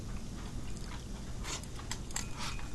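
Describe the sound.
Chewing during a home-cooked meal, with wet mouth sounds and a few sharper crunchy bites coming mostly in the second half, over a steady low background and no talking.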